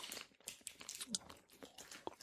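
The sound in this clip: Someone chews crunchy almond snacks. Dense, continuous crackling crunches and biting sounds fill the stretch with no pause, at a moderate, steady level.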